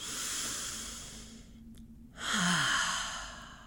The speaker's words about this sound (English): Just breathe in through the nose and out through the mouth.